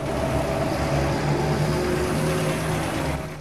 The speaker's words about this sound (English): Daytime, two army trucks drive through the village.